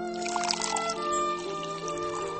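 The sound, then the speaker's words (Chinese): Red wine being poured into a glass makes a soft, faint trickling pour against a sustained tonal background. “服务员打开酒塞，红酒入杯，深红醇厚。”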